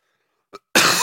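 A cough from a throat still dry after an illness: a brief soft catch, then one harsh, loud, breathy burst that carries on to the end.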